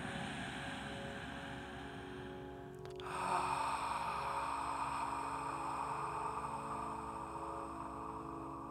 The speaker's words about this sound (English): So we're going to inhale through the nose and exhale through the mouth.